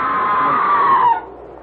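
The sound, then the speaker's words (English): A woman screams once, loud, high and sustained for over a second. Her pitch slides slightly downward before breaking off into a quieter background. “Oh, the scream! There it is again! That was a scream”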